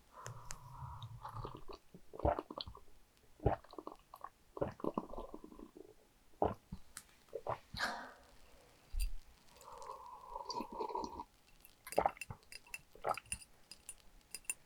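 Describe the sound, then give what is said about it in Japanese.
Close gulps and swallows from a large glass of warm drink, captured by a binaural microphone resting on stacked books on the floor: many quiet, irregular swallowing sounds with occasional faint clinks of the glass between them. “もうちょっと飲むね。”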